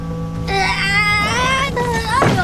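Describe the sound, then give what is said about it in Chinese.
A child cries in wavering, high-pitched wails whose pitch bends up and down, broken by short gaps and ending in a sharper outburst. “哎，小孩，你干嘛呢？ 妈妈， 你哭什么？”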